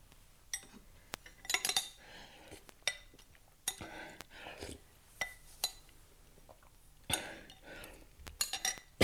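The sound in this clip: Meat broth being eaten from a pot at a table, with many faint, irregular metallic clinks and scrapes of cutlery against the pot, clustered in short bursts between quiet gaps.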